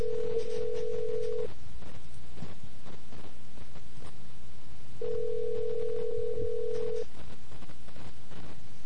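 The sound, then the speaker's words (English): Ringback tone of an outgoing telephone call to a weather service office, conferenced in from a cell phone. Two steady buzzing rings separated by a long pause, the first cut short at the start, over constant hissy line noise. “now we'll call the number again. And we'll conference it in.”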